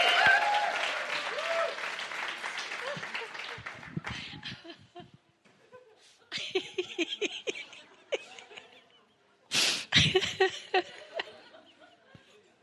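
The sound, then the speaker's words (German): Applause from a church audience during a sermon: dense, sustained clapping for about four seconds that thins out, then scattered bursts of clapping and a louder final surge. “Komm, ihr könnt anders applaudieren.”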